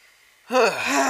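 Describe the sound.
A deep breath drawn in sharply and loudly, gasp-like with a voiced, moaning edge, begins halfway through after near silence and holds steady to the end.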